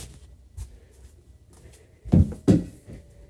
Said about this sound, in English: Put the lid on the bottle like this.